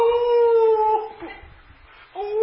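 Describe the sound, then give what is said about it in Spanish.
A human voice imitates a dog whining from a thorn stuck in it: a high, drawn-out whimpering whine that sags in pitch, breaks off into a low murmur, then starts up again. “Y este perro se sienta y resulta que estaba en una viña de espinas. Y la espina se le clavaba y lo único que decía es”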